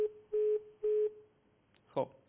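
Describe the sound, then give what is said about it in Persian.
A telephone line tone sounds after a caller's line drops during a Persian call-in show: three steady mid-pitched beeps in an even rhythm, then a brief voice fragment at the end. “ظاهراً تلفن آقای محمدی قطع شد.”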